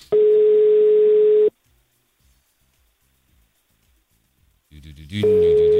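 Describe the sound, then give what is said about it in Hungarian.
A telephone line tone sounds while a call is being placed: a steady single-pitch tone lasts about a second and a half, then a stretch of near silence, then some noise and the same tone returning. “Gyorsan felhívjuk.”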